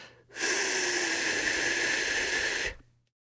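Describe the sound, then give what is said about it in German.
A long, even exhale through the mouth with the lips shaped into an F, giving a breathy, airy hiss that holds steady for over two seconds before stopping cleanly. “Atme durch den Mund aus, indem du mit den Lippen ein F bildest”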